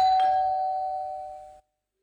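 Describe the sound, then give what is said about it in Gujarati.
A doorbell rings at a home's front door as one steady, sustained electronic tone lasting about a second and a half, holding level before cutting off abruptly into silence. “અરે ખોલું છું જપો, ઘંટડી ઉપર જ બેસી ગયા છો કે ઉભા રહ્યો?”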